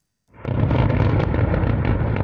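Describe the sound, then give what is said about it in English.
Large blasts during a night-time Russian attack on Kyiv: after a moment of silence a loud, deep, rumbling explosion bursts in and roars on steadily to the end without letting up. “In Kyiv, the small hours broken once again by large blasts, the sound of a city enduring yet another Russian attack.”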